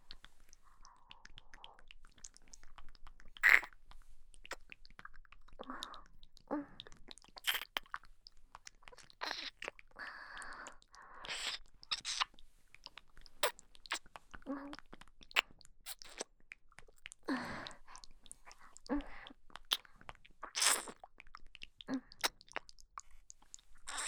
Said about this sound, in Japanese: こうやって舌で舐め回すようにして、最初はゆっくりゆっくりやらせていただきますね。